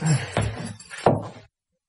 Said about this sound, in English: At the top, you need two hands to get the door open. It's a bit stiff.